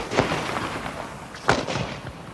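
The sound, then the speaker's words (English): Artillery batteries open fire in the battle at Gate Pā: two deep, booming blasts about a second apart, each a sudden loud burst that rumbles away under a continuous noisy background, with no voices. “At 7:30, the general officer commanding gave orders to open fire from the batteries.”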